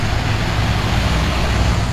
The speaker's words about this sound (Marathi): रोक गाडी रोक.